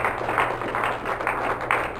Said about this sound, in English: Let's give hands to the Lord Jesus Christ. Just clap.